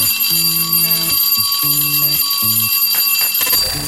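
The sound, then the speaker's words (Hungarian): A bell-like electronic chime rings out as a signal tone, playing a short melodic run of stepped, clear notes over a bright sustained high tone, with no talk. “Ez a csengő hang volt a jeladása jelentkezése.”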